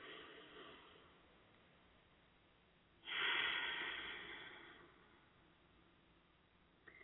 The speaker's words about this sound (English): just try to place your hands on your belly, your stomach. And I want you to have that stomach expand when you take that deep, deep, deep breath. And I'm going to do it with you.